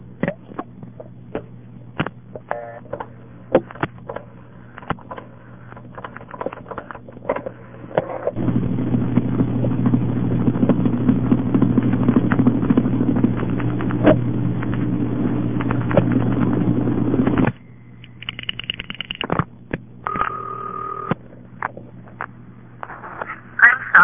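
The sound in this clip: Telephone line sounds from dialing a seven-digit number through a tandem switch: scattered dial clicks, a long stretch of hissy line noise over a low hum, then brief steady switching tones and more clicks.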